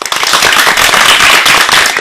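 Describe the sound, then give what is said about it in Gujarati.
Thunderous applause at a children's program, loud and dense, with many sharp, crackling claps merging into a heavy, continuous roar. “આ તાળીઓના ગડગડાટને વધાવવા માટે તૈયાર છો ને?”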